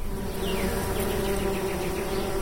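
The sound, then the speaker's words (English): Honeybees buzz around their hives on a farm in Coal Valley, Illinois, forming a loud, steady, dense drone of many wings with no pauses and no voices. “At Crandall Farms in Coal Valley, Illinois, Phil Crandall and I are covered from head to toe in bee suits, completely protected from stings, unlike his late grandfather, who had no special protection while tending his honeybee hives.”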